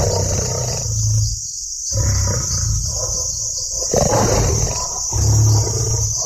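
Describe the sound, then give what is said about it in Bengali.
A huge lion roars at night close to a camp tent: deep, rough rumbling swells and subsides again and again across several seconds, loud and continuous over a steady high hiss, with no voices. “আগে অনেকবার শঙ্কর সিংহর গর্জন শুনেছে, কিন্তু এ রাত্রে সে ভীষণ বিরাট গর্জন তার চিরকাল মনে থাকবে।”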